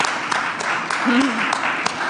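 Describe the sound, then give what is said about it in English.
Warm applause from a festival audience welcoming an author onto a panel discussion: steady, moderately loud clapping with a few sharper individual claps standing out. “Please give her a warm round of applause.”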